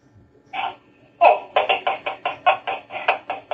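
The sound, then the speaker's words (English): Fingertip tapping on the body at acupressure point T1 at the neck: a couple of separate taps, then a steady, even series of quick, light taps of similar loudness. “we are going to tap to open up the neck. That is T1.”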